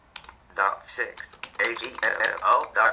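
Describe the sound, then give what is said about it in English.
Quick clicks and taps of typing on a Braille note-taker keyboard come in irregular bursts, with a voice speaking over the keystrokes throughout. “I'm going to type in here, for example,”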